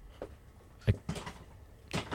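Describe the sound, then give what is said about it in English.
A chair being moved and sat in, a few faint knocks and creaks, one slightly stronger thump near the middle, with quiet pauses between them. “Sorry, the chair was causing problems. The first chair I sat down in was even worse. But this one's better.”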